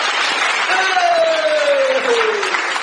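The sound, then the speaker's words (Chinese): Audience applause at a comic crosstalk performance, a dense, even clatter from start to finish, with a sliding voice-like tone drifting downward through the middle. “听听掌声，听听掌声，来来来，”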